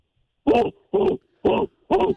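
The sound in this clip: A human voice imitates a growling dog with four short, gruff, voiced bursts of similar length and loudness. The bursts are evenly spaced and separated by brief silences.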